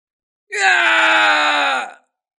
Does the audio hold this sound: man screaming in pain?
yes

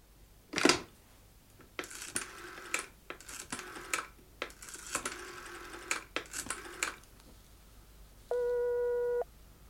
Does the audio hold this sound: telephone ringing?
yes

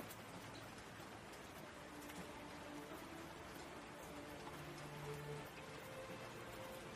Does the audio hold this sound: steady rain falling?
yes

